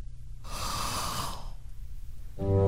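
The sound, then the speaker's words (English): A deep breath blown out hard with puffed cheeks, heard as one airy rush lasting about a second, followed by a pause before a low musical tone enters at the end. “took a deep breath”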